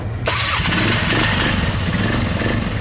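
ATV engine on desert trails in a valley, firing up and settling into a loud, steady, rough drone that continues without a break.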